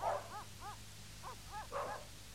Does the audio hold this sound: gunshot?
no

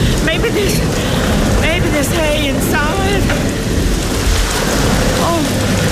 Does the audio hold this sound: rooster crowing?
no

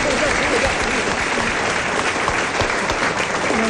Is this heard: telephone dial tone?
no

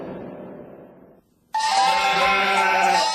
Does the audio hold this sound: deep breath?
no

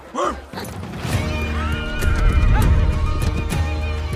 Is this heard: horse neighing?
yes

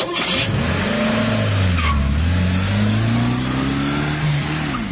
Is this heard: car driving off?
yes

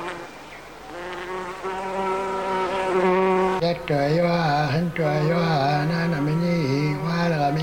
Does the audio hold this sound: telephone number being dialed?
no

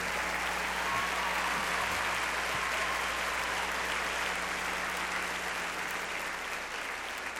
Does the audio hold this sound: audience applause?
yes

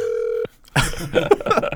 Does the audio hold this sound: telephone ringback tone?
yes

